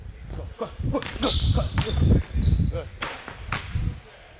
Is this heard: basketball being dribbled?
yes

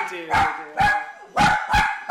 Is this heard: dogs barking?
yes

